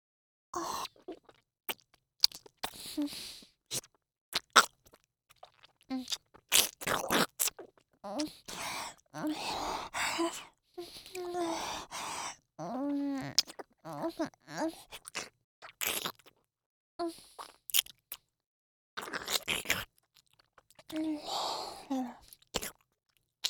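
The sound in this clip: Chewing of food close to the mouth, with many irregular wet, crunchy bites and smacks, soft breaths and brief mouth noises in an uneven, continuous rhythm, without clear speech.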